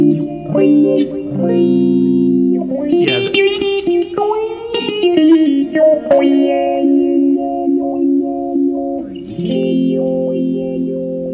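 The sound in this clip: An electric guitar plays through a pedal's voice effect, which mimics an electronic talk box. Sustained, distorted notes take on shifting, vowel-like tones that sound almost like speech as the pitch bends and changes between phrases.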